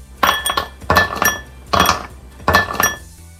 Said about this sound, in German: ich würde immer noch sagen, das sind Eiswürfel, die in ein Glas fallen. Und das ist die absolut richtige Antwort.